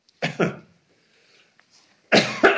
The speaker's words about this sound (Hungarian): Bocsássatok meg, hogy ilyen nem együtt munkálkodó még mindig a torkom, és néha köhögnöm kell.